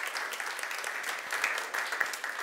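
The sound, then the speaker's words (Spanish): Applause from the audience at an evening gathering at Alfa Omega's Powerhouse, a dense, steady wash of clapping that holds at an even, moderate level throughout. “Quiero que se den un buen aplauso a ustedes por estar aquí con nosotros el día de hoy.”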